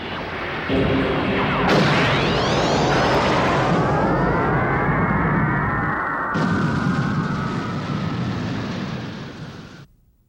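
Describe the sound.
A sci-fi space fortress's main cannon fires with a huge, sustained roaring blast. Layered sweeping tones fall in pitch over a deep rumble for nearly ten seconds before it cuts off.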